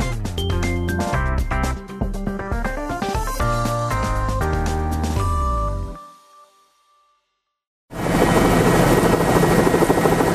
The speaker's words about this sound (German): Von der Ölplattform Terra Nova Field rund 350 Kilometer vor der Küste Neufundlands kehrt ein Hubschrauber zurück nach St. John's